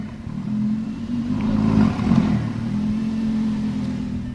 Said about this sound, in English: That's the sound of a Lamborghini right here in the showroom.